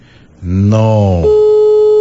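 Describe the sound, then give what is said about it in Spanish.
A telephone busy tone on an unanswered call: a loud, brief buzzy harmonic tone that shifts into a steady, single-pitched tone held to the end. “Ya le hicimos algunas llamadas, pero no puede contestar.”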